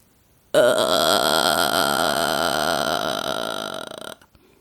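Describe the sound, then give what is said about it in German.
A woman singer demonstrates vocal fry, a creaky voice technique: one sustained, low, rattling croak held steadily for about three and a half seconds, then tapering off abruptly, heard alone. “Die nächste Technik ist eine meiner Lieblingstechniken, der sogenannte Vocal Fry oder Schnarregister. Ich mache es euch einmal vor, dann wisst ihr, was ich meine.”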